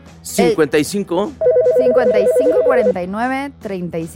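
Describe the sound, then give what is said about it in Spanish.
An electronic telephone rings with an incoming call, a steady trilling tone lasting about a second and a half, with people talking loudly before and after it. “Tenemos llamada.”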